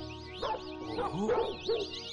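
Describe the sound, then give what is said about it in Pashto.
A dog barks in a few short, sharp bursts separated by brief pauses, with some higher yipping notes mixed among the louder barks. “اوس لاړ شه ګنې سپی به دې وچیچي”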